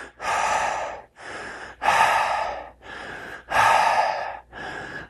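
Rhythmic pumping breathing demonstration: six forceful breaths in a steady rhythm, strong bursts alternating with softer ones, each with a short gap. No talking.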